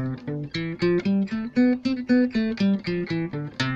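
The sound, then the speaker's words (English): A C major scale is played as a steady run of separate, evenly paced notes that climb step by step to the top and then step back down again. “we're playing major scale on the C.”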